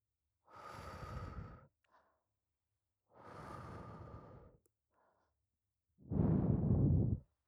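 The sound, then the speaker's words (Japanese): Gentle blowing on the ear: three soft, breathy puffs of air separated by short pauses, the last one louder and fuller than the first two, with no talking. “それじゃ、こっち側もふうふうしていきましょうね。”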